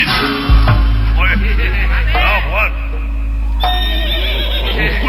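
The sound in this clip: A horse neighs in a few wavering whinnies that rise and fall in pitch over a steady low hum.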